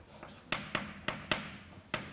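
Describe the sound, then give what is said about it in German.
Quiet writing strokes from someone writing out a term from memory, a series of short, sharp taps and scrapes with brief gaps between them. “Ich schreibe mal hin, was ich denke, dass es ist, und ihr kontrolliert mal eure Aufzeichnungen.”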